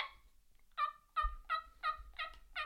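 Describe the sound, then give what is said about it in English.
Soft turkey tree yelps made on a pot call: a quiet run of several short, raspy, nasal notes, evenly spaced and fairly high, following a brief faint opening sound. “I honestly like the tree yelps. I like to do them on a pot more than a yelp or more than a mouth call.”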